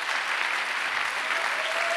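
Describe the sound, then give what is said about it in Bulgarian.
A church audience applauds: dense, even clapping from many hands runs steadily at a constant, fairly loud level throughout, with no talk on top. “Би трябвало да ръкопляскате тук.”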